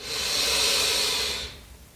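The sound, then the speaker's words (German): A single deep breath drawn slowly in a soft, airy hiss that swells and fades after about a second and a half, heard alone. “Und zum Abschluss nimm noch einen tiefen Atemzug.”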